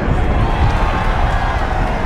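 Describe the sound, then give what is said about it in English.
A group of people cheering at an avalanche rolling down distant mountains, a loud, continuous wash of crowd noise with no clear break. “A group cheers a few meters away at an avalanche that can be seen rolling down mountains in the distance.”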